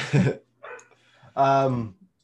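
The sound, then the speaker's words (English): A pet dog barks in the background, giving a few short, separated barks, and the middle one is fainter than the others. “Sorry if you can hear my dog barking in the background, but that's okay. We're used to my dogs always interrupting the shows anyway.”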